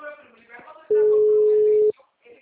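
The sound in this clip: A single steady telephone tone, about one second long and mid-pitched, sounds while a call is being placed, with a person talking just before and after it.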